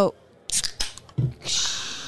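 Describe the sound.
A beer can being opened: a few sharp clicks and crinkles, then a longer, fairly loud hissing fizz of escaping gas that slowly fades.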